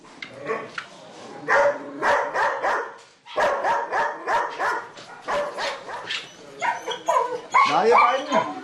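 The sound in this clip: Dog barking in many quick, repeated barks and higher yips with some whimpering, coming in uneven bursts amid some voices.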